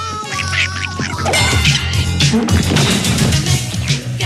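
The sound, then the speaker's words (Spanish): A mobster's mallet blow to someone's head lands as a sharp crash amid busy, cartoonish sound effects with squawking, warbling tones throughout. “El mafioso le golpea la cabeza con un mazo.”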